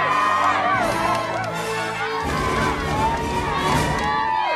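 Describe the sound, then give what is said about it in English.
Parents cheering in the bleachers at a goal in a kids' soccer game: many excited voices shouting and whooping together, loud and sustained throughout. “In the bleachers, the parents cheer.”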